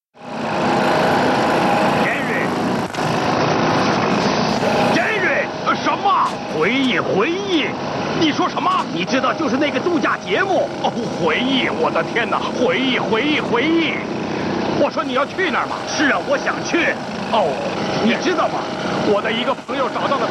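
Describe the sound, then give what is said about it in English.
A jackhammer's continuous harsh mechanical rattle runs steadily under people talking throughout. “There just might be a bit of a jackhammer in it.”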